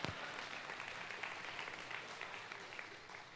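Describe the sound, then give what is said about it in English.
People clap for a one-year-old toddler with faint, continuous, evenly paced applause that holds steady throughout. “Yeah, you can clap for that little stud.”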